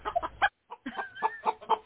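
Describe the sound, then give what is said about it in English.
Chicken clucking in a run of short, throaty clucks with a brief pause partway through, then more clucks at a steady, fairly quick pace. “Lisa sicked her fucking Norristown chicken on me. It is trying to peck my eyes out.”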